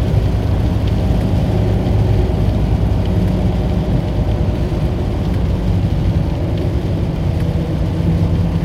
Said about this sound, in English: It's raining. I don't know if you can hear that in the background.